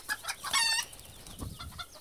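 Frightened hens in a hen run cluck and squawk in a fairly faint, agitated burst of calls. A louder, drawn-out squawk comes near the middle, with scattered clucks before and after.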